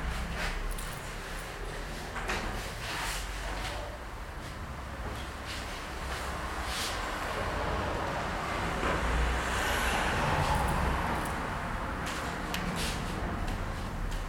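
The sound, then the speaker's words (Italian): Background road traffic from passing cars forms a continuous low rumble and hiss. It holds at a fairly even, moderate level throughout with no talking over it. “anche se abbiamo avuto sottofondo delle macchine”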